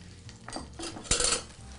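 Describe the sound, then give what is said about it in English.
About a cup of raw corn kernels is tipped into corn puree in a pot, giving faint soft clattering and scraping with one sharper clink partway through. “So now that we have our corn puree ready, I'm just going to add about a cup of this raw corn right to the corn puree.”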